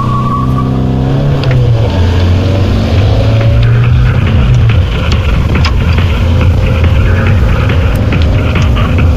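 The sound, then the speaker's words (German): A car drives along with a loud, steady engine rumble and road noise that hold throughout, with no voices. “wie lange fahren wir eigentlich noch nach Langenhagen?”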